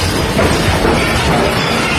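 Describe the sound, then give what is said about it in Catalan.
A building collapsing in Caracas during an earthquake, captured on a neighbor's mobile phone. A loud, unbroken roar of rumbling and shattering debris fills the whole stretch without a pause. “Aquest és el moment en què cau un edifici a Caracas.”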